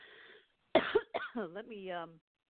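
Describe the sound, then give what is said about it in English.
A person coughs twice in quick, sharp bursts, followed by a short, voiced, throaty sound. Near-silence surrounds the coughs. “And a cough. That's in the air.”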